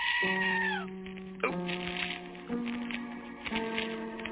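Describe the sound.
A goat bleats in a few loud, wavering, nasal calls, the first sliding down in pitch, each following closely on the last.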